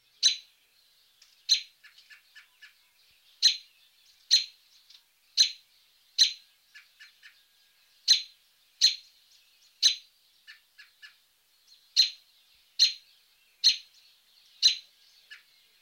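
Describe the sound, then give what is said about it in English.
Robin call notes: many sharp, high, clipped chirps come at an uneven pace, with softer, quicker groups of notes between them, and no other sounds. “The robin has a variety of typical call notes, and here is a sample.”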